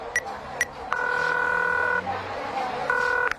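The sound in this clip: Telephone keypad tones sound as a number is dialed: two brief beeps, then longer steady electronic tones with a short gap between them, over low background noise.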